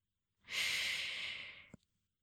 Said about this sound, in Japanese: まずは、こんな風に、息をゆっくり吸って、